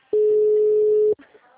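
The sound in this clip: A telephone tone sounds while a call is being placed: one loud, steady tone of constant pitch lasting about a second, then cutting off into faint low sounds.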